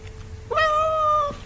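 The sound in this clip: A cat gives a single clear meow lasting under a second. The tonal cry rises slightly at the onset, holds steady, then glides down at the end, heard alone over a faint low hum.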